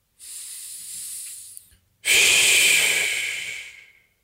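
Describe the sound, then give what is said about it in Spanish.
A slow, deep breath drawn in through the nose, then a louder, longer exhale out through the mouth, done during a guided relaxation exercise. The two airy breaths are heard alone with a short pause between them. “vamos a inhalar profundo por la nariz y a exhalar profundo por la boca.”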